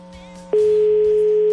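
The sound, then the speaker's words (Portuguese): A phone line's ringing tone on an outgoing call: after a quiet opening, one loud, steady, even-pitched tone sounds for about a second, then cuts off. “tá chamando, hein?”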